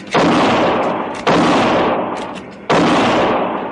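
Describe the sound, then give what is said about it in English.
Gunshot sound effects in a 1958 frontier radio drama set on a rocking train carriage: three sharp, loud reports at roughly even intervals, each trailing off in a long fading echo. “The bullet struck a log beside my arm. I felt a splinter tear my cheek, and I fired back.”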